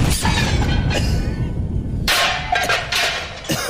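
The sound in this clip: Grenade explosion sound effect: a loud, harsh roar of noise broken by several sharp crashing bursts, with the heaviest blast striking about halfway through and another sharp crack near the end.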